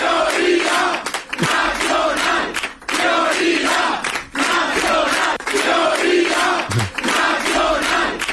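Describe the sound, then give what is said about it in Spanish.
A crowd of Vox supporters on election night chants a slogan in unison, loud and steady, repeating the same phrase many times with brief dips between repetitions. “El sonido de la noche electoral estuvo en los cánticos de los simpatizantes de Vox, prioridad nacional”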